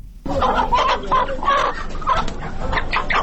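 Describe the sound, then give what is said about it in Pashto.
Caged chickens cluck at a market stall where a shopkeeper brings them out for sale. Many quick, overlapping clucks and squawks sound loud and busy throughout. “د سده په بازار کې دکاندار د خرڅ لپاره لا پنجرې چرګ راوباسي.”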